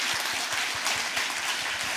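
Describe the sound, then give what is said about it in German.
Applause from a small audience in a studio: steady, dense clapping of even loudness for two seconds, with no voices over it. “kleiner Applaus nochmal für Tim.”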